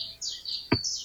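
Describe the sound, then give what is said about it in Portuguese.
Birds chirp outdoors near a home, a few high, thin, drawn-out calls following one another, with one brief lower knock partway through. “eu tô ouvindo passarinhos aí, eu tô ouvindo, eu tô me enganando, tô ouvindo aí muitos passarinhos, onde é que você tá?”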